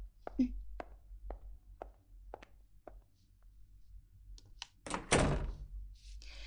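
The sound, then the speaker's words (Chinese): A door is pushed shut with a solid, dull thunk in a treatment room, after a run of light, evenly spaced taps and clicks. “我们需要把门关上。”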